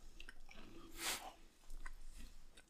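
Chewing on a hard, dry oatmeal cookie with cranberries and white chocolate: faint, crunchy bites and soft mouth sounds, with one louder crunch near the middle and no talking.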